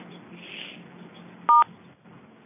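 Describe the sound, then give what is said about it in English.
A single electronic keypad tone from a phone sounds while muting all callers on a conference call. Another tone starts right at the end. Both sit over faint, steady low hiss. “All callers are muted. All right, now I muted everyone.”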